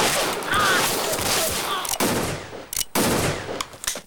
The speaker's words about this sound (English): They exchange fire and run for cover. Chavez is too slow and gets shot.